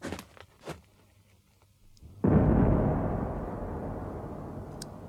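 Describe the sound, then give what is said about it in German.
A signal cannon near Moscow fires a single shot. After a quiet stretch comes a sudden loud boom that slowly rumbles away over several seconds. “Ein einzelner Schuss der Signalkanone ertönte.”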